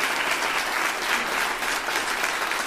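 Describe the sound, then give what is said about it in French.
An audience applauds and acclaims a speaker with dense, steady clapping that holds at an even loudness throughout. “Je voudrais voter pour toi au prochain municipal pour te voir à chaque fois être acclamé comme ça.”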